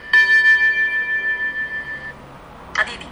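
Cuckoo clock sounds with a steady, bright ringing tone that pulses in a regular rhythm for about two seconds, then fades. A brief sharp click follows near the end.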